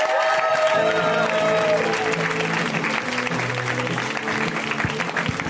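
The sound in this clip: An audience at a stand-up comedy show applauds steadily for an incoming comedian, with dense clapping and cheering over music playing underneath.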